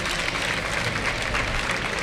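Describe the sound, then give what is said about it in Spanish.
Applause from a bullring crowd for the matador Morante after the first bull, a steady, dense patter of many hands clapping that holds an even level throughout, with no distinct voices rising above it. “Bueno, pues aplausos a la voluntad de Morante.”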